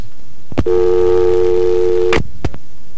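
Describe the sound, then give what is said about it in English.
Telephone line tone after a caller hangs up: a click, then a loud, steady electronic tone held for about a second and a half, ending in another click, with further clicks just after. “And again, a hang-up.”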